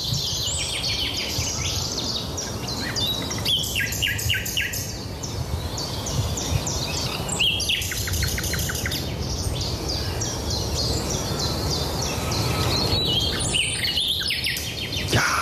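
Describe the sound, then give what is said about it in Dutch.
Nightingale song recorded outdoors by a listener: varied phrases of rapid repeated notes and trills, separated by short pauses, with steady background noise throughout. “Dus hup, de eter in met die nachtegaal.”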